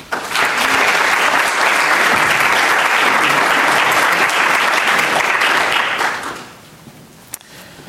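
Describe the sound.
Audience applause welcoming a speaker to a talk at the Modern: loud, dense, sustained clapping for about six seconds that then fades away.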